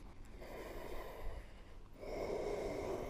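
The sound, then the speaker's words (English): A soft breath drawn in during a breathing exercise, a faint, airy hiss heard alone that swells slightly partway through. “Okay, that soft breath. Bring it in.”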